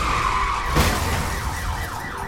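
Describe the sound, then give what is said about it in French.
Car horns blare from crashed cars after a police car hits a lamppost, overlapping as loud, continuous honking tones that waver and sweep in pitch toward the end. “Maintenant, toutes les voitures accidentées klaxonnent. Toutes les voitures qui peuvent encore rouler klaxonnent.”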